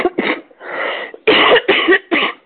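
Harsh coughing from a tickle in the throat, loud and alone with no talk: a long raspy stretch followed by a quick run of several sharp, throaty bursts.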